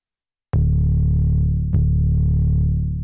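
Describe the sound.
Deliberately clipped synth bass from the Omnisphere patch Buried Roots, treated with an EQ trimming the sub lows, a Nembrini distortion plugin and parallel compression: two loud, buzzy, sustained notes, each starting with a sharp attack.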